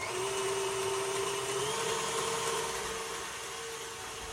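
An electric mixer runs on high speed whipping cream to soft peaks for a lemon icebox pie, giving a steady, continuous motor whir with a sustained tonal hum and no breaks.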